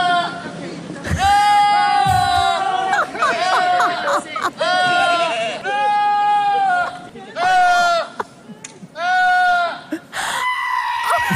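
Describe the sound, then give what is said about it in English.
Goats bleat loudly in a series of long, wavering, strongly voiced cries that sound strikingly like human yelling. Several separate bleats follow one another with only short gaps between them. “I don't know if you've heard these compilations, Deepa, of goats yelling like humans.”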